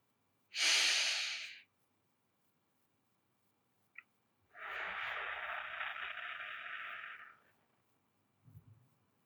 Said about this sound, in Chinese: 然后用嘴巴慢慢的呼气，数到五，继续。